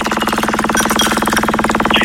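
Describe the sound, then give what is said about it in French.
A prize wheel spins during a contest game, giving off rapid, even ticking that runs loud and steady from start to finish with no voices. “Donc c'est parti, la roue, elle tourne.”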